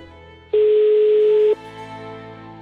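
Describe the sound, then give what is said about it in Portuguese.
A single steady telephone tone sounds while a call is being placed, lasting about a second, loud and flat in pitch, then cuts off abruptly, leaving a quieter ongoing background. “Ligando.”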